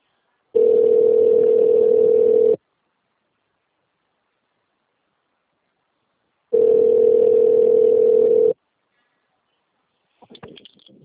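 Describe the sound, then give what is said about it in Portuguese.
A telephone tone sounds while redialing after a dropped call: two long, steady, even-pitched beeps separated by a long silence, followed by a faint brief rustle at the end. “A ligação caiu, aí eu retornei novamente.”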